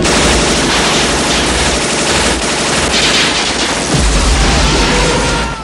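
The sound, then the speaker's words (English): Automatic gunfire rattles continuously as men fire at a lift carrying a mine, dense overlapping shots with no pause, loud throughout, with a heavier low rumble swelling in the latter part. “A burly man with a goatee and a man with a moustache fire at the lift. They hit the mine.”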